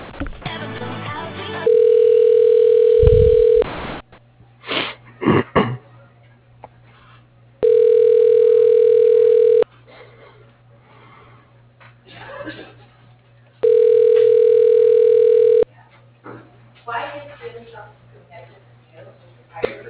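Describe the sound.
A telephone line tone sounds while a call is transferred to voicemail: three long, steady ringback tones, each about two seconds long and evenly spaced, with a voice heard in the gaps between them.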